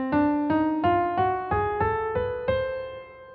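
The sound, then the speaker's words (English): An octatonic scale, one of Messiaen's modes of limited transposition, played on guitar: eight ringing notes plucked one after another in a steady rhythm, climbing in pitch, each decaying before the next. “And so this scale, the octatonic scale, sounds like this.”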